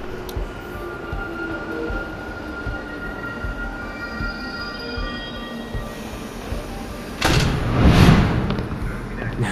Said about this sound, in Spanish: No miren allá. Ya llegó el tren.